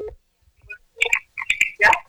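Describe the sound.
Electronic telephone tones as a call is transferred: a few short, bright beeps and tone bursts in quick, uneven succession, with a quiet gap before them.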